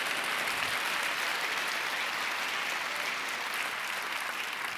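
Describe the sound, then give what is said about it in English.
An audience applauds during a church meeting with steady, dense clapping that holds at an even level for about five seconds, with no clear voices over it. “Come on, let's put our hands together and say amen.”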